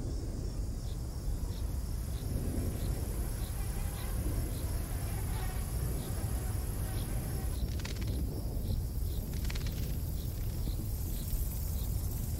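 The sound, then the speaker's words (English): Swarms of flying insects drawn to a warm volcano crater at sunset make a dense, steady hiss, with faint high chirps repeating at a regular pace throughout. “At sunset, swarms of flying insects are attracted by the warmth of the crater.”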